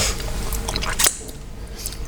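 Wet, squishy chewing of a summer roll being eaten, a soft continuous mashing with one sharper, louder bite near the middle and no talking.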